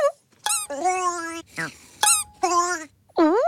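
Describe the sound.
Squeaking from a stuffed toy's paw as it is moved: a series of loud, high, tonal squeaks with bending pitch, separated by short gaps.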